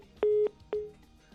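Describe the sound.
A telephone tone sounds after the caller has hung up on a call. Two steady beeps at the same pitch play with no talk, and the second one is shorter than the first.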